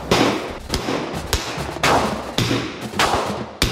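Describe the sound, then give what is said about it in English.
Handgun shots fired during a basic firearms course: a series of sharp, loud, booming cracks spaced roughly half a second apart, each with a short ringing tail, with no voices between them. “Firing an actual for real life handgun.”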